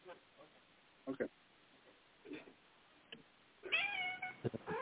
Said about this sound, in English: Nice, you're a cat. Oh, that's my cat.